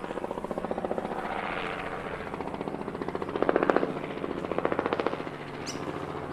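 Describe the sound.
A helicopter with large rotor blades flies over the sea, its steady rhythmic rotor thumping continuous throughout and briefly louder midway.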